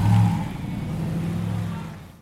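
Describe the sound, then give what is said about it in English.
A truck engine rumbles as it drives off near people, a steady low drone under broad road noise that fades out at the end. “the truck is inching forward. And, and it's backing up. That was very close. And it's driving off.”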